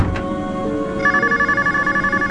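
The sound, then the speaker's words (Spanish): A telephone rings at midnight, waking a woman from deep sleep: after a second of quiet, low background, a loud, bright ring pulses in a rapid, steady trill that keeps repeating until the end. “El sueño profundo de esta mujer se ve alterado por el teléfono que suena a medianoche.”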